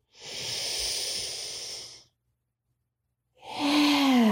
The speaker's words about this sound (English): One more time in through the nose.